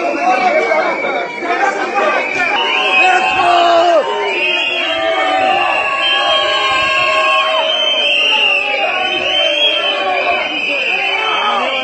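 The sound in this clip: Ultra-Orthodox protesters shout at the entrance of a private concert hall in Israel, many loud overlapping voices yelling and chanting in a continuous, agitated crowd din.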